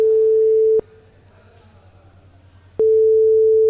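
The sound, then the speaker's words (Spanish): A telephone tone on a call dialled to a company's UK office: a steady mid-pitched tone cut off by a click, about two seconds of quiet line hiss, then the same tone returning with another click. “Marca el número, sí, Sony Reino Unido. Vamos a llamar.”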